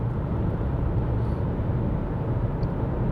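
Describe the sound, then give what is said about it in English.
Steady road rumble from a car driving on the Massachusetts Turnpike, a dense, even low roar of engine and tire noise with no talking. “All right, so still driving. I'm on the Massachusetts Turnpike”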